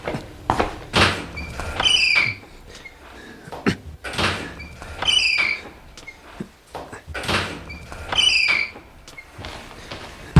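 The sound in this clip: A foot kicks against a closed but unlatched toilet stall door in a restroom with ten cubicles. Dull thuds and rattles come in a few repeated bursts, each capped by a brief high squeak.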